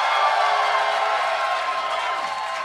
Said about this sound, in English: put your hands together for my first guest from every single Fast and the Furious episode of High and Mighty, host of the Blank Check podcast with Griffin and David, the aforementioned Griffin Newman.